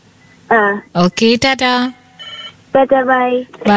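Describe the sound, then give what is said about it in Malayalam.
A telephone rings with an incoming call to a listener call-in line, giving several short, bright ringing bursts in a quick, uneven pattern. “അടുത്തൊരു call എത്തിട്ടുണ്ട്.”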